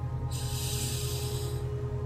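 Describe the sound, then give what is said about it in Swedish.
A deep breath drawn in through the nose during a guided breathing exercise: one long, steady, airy hiss lasting about a second and a half over a low, constant hum, with no talking. “jag vill att du tar ett djupt andetag genom näsan.”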